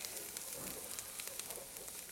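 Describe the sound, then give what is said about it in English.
Garlic sautés with vegetables in a pan, giving a faint, steady sizzle with soft crackles and tiny pops scattered evenly throughout, with no voices. “We're gonna add the garlic. That goes in. Saute that a second.”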